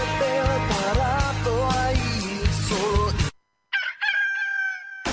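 A rooster crows in an advert for a poultry shop selling live birds, hens and large chickens. A rhythmic musical jingle plays first, then a short silence, then one drawn-out crow stands alone.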